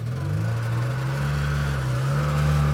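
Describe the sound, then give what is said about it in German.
Engine running and revving in an open-cockpit vehicle with the driver seated directly on the engine as first gear goes in. A steady low hum with slight rises in pitch runs throughout, with no talk. “Er springt anscheinend an. Er macht Anzeichen. Er hat das Gas angenommen. Jetzt haben wir den ersten Gang rein.”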